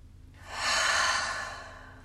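A deep, slow relaxing breath during a guided relaxation exercise, heard alone as a soft, airy rush that swells and then fades gently over about a second and a half.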